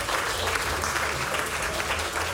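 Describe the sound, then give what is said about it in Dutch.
Audience applause at a theatre festival performance, a dense, steady clatter of many hands clapping that fills the whole stretch at even loudness, with no voices over it. “Mag ik applaus voor ze?”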